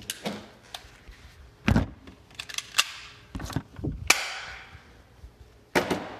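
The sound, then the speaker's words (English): Sharp snapping pops from a BB gun being fired, several loud cracks spaced irregularly with quieter clicks and rattles in between, each shot short and bright with a brief tail, no voices. “I just shot a BB gun.”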